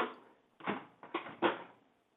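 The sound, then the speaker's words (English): An appliance lid locking after the start button is pressed, heard as a few quiet mechanical clunks and clicks in a short irregular cluster, with faint rattling that fades to silence. “I'm going to push the start button. Okay. Okay, here we go. The button for the lid to lock.”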